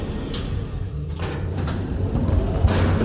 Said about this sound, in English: This elevator will take us near the cold storage.